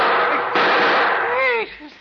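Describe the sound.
A gunshot fired at a man at the front door of a small house with a sun porch and swimming pool, a harsh, loud burst that lingers for over a second before cutting off sharply.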